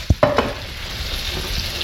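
Sauce simmering and sizzling in a pan, with a few sharp stirring knocks at the start, then a steady, soft bubbling hiss.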